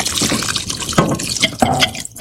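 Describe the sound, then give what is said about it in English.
Cups of water being poured into a pot of plant-based vegetarian curry, a continuous splashing and trickling with a few louder gushes as each cupful lands. “And now I'm going to add my cups of water to this.”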